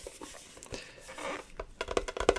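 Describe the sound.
Yu-Gi-Oh! trading cards are handled in a toy-shop roleplay, making soft rustles and crinkles that build into sharper flicks and taps toward the end. No one talks.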